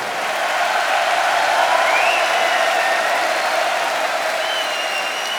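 A concert crowd applauds and cheers for a band's road crew in a dense, continuous roar of clapping, with a few high whistles rising above it throughout.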